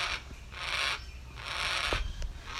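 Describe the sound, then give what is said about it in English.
A black cockatoo calls with harsh, raspy screeches, three drawn-out noisy bursts in quick succession, each fairly loud and broad. “live up to 50, 60 years of age, these black cockatoos. So, but yeah, they not native to WA, but you can hear him in the background.”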